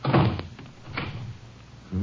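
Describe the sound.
A door is shut and locked on people held inside a boarded-up room: one heavy, muffled thunk, then a few fainter knocks, with no talk.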